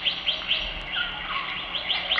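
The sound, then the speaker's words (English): Birds singing among tall forest trees: bright high chirps repeat in a quick, steady rhythm, with a lower whistled note in the middle, over a faint background hiss. “listen to the singing of the birds”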